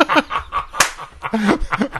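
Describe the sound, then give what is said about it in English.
A person imitates a dog about to vomit with their throat: a string of irregular, wet gulping and smacking sounds in short, uneven bursts. “What was weird is your throat moved when you did it. I was like, this is... Okay. That's the sound of a dog about to vomit.”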